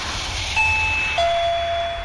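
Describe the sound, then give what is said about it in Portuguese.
A doorbell chimes two clear electronic tones, the second lower than the first, each ringing on and sustaining over a steady background hiss. “a campainha tocou e você já sabe, é hora das notícias de Brasília”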